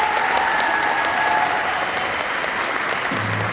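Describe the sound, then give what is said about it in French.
An audience applauds the musicians at the opening ceremony of a game show convention. The clapping is dense and steady at a fairly loud, even level, with a brief whistle near the start. “Et on applaudit tous les musiciens qui ont joué sur la cérémonie d'ouverture.”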